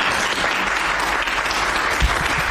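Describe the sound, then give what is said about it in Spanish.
Dense crowd applause outside a political party's headquarters on a Madrid street after an absolute-majority election win, a steady, loud, continuous wash of clapping that holds evenly throughout. “Aplausos de hoy en la calle Génova, que podemos fundir con estos otros aplausos”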